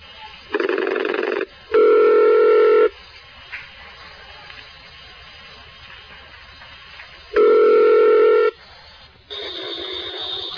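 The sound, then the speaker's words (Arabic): Steady electronic telephone tones, a few held notes each lasting about a second, are separated by short gaps over a faint background hiss. “من سلسلة الهدى والنور أجوبة على أسئلة عبر الهاتف”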